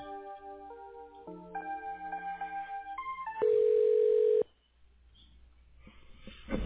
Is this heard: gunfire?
no